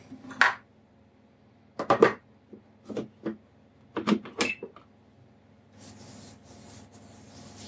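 A lid is set onto a kitchen mixer after milk is poured in: several short plastic knocks and clatters come in uneven bursts, then a softer steady rustling noise continues to the end.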